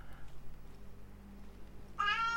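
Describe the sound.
A cat meows once near the end, a short, bright, harmonic call after a stretch of low, steady hum. The cat is healthy but has lately been fussy and irritable.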